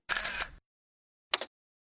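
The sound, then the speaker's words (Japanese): A camera shutter fires quietly: a longer burst of mechanical shutter noise, a pause, then a short, sharp double click. “よし、撮るぞ。はい、チーズ。”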